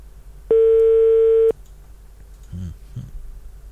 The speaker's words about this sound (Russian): Сейчас дозваниваемся человеку, и ему нужно правильно ответить на звонок.